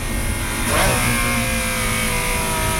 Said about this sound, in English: Here comes the downshift. We're coming into a stop sign. You ready? We're coming into a light. You're going to get to hear it.